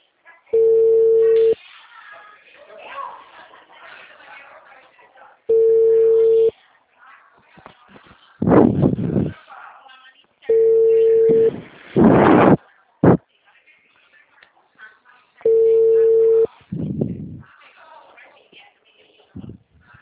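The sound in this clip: A telephone ringback tone plays on an outgoing mobile call: four steady mid-pitched beeps, each about a second long, evenly spaced several seconds apart. Voices and other noises fill the gaps between the beeps.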